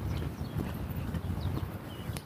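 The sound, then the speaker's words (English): Steady, evenly spaced ticks mark a moderate exercise pace of 100 steps a minute. The ticks are soft, regular clicks over a low, rumbling background. “And if you can hear the ticking, which I hope you can't because it's probably irritating,”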